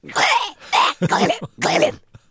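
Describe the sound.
A voice imitates an animal coughing up a fur ball: four rough, throaty retching bursts in quick succession, then a brief pause.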